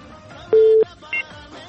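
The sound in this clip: Telephone tones sound as a call-in line is dialed and connected: a longer steady electronic beep, then a shorter one, over a faint background hum.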